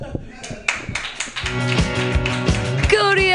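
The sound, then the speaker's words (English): An audience at an open mic comedy night claps, starting with a few scattered claps that quickly swell into dense, continuous applause, with a voice speaking over it. “Keep those claps happening. Keep it all going”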